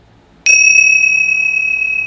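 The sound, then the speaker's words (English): A single bell strike rings out as a clear, high, sustained tone that slowly decays over about two seconds, heard alone with no voices. “Sound of the bell too, dependent on conditions,”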